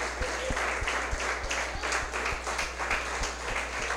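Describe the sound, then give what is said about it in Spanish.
A church audience applauds to welcome first-time visitors in the days before Christmas. The clapping is quiet and continuous, with a steady low hum beneath it. “Quiero que les demos un aplauso fuerte a cada uno de ellos, darles la bienvenida. Muy especial de parte de nuestra iglesia.”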